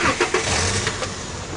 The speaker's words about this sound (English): Katie drives away with Elle in the passenger seat.